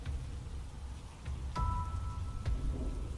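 Rain falling, a faint, steady soft hiss of rainfall with a couple of brief, sharper ticks, and no voices.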